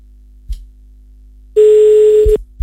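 A telephone ringback tone while calling a number: one steady, buzzy tone lasting under a second, framed by a few faint clicks before and after.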